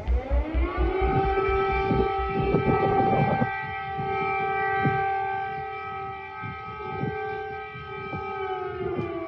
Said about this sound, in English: sirens sound in Ukraine's capital as the Russian army advances and skirmishes break out on the outskirts of the city.